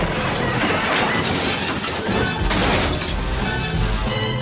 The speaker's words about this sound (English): The buckling bonnet scrapes along the rear of the bus. Its rear emergency door shears off its hinges. Sparks fly as the truck is dragged round the side of the bus.